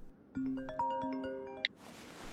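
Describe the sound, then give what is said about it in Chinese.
A phone rings with an incoming call: a quick melodic run of sustained electronic ringtone notes ends in a sharp, bright blip, followed by a short burst of soft hiss. “秋意的电话打过来的时候”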